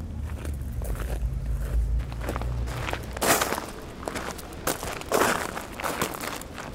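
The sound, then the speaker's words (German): Footsteps walking through Saarbrücken castle, a steady run of many crisp steps at an even pace, with a low hum beneath the first couple of seconds. “So, dann drehen wir uns nochmal wieder um 180 Grad und gehen direkt durchs Schloss durch.”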